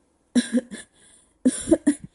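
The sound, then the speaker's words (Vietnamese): A man coughs after choking on water poured into his mouth. Harsh, hacking coughs come in two clusters of a few rapid bursts each, separated by a short pause with a faint breath. “Bị sặc nên anh ho sặc sụa, cả người như bị điện giật.”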